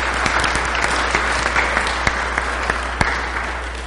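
Congregation applause welcoming a newcomer at a church service: dense, steady clapping from many hands, with a few sharper individual claps standing out, sustained at an even level throughout.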